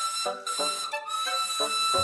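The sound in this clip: Steam whistle of a very old red boiler engine shaped like a coffee pot: a sustained, shrill high tone, loud and alone, broken a few times by brief dips.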